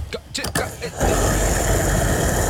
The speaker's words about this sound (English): We'll start filling up the Kia, okay?